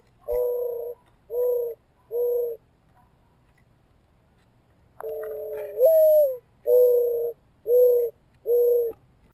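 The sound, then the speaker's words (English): A mourning dove gives soft, low cooing: three short notes, a pause, then a longer note that slides upward, followed by three more short, steady coos. “The second was a mourning dove.”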